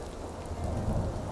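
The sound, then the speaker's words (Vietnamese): Heavy rain shower pouring down during a thunderstorm, a dense, steady hiss of falling water over a low, continuous rumble, with no voices. “Không bao lâu sau, trận mưa rào ào ào trút xuống.”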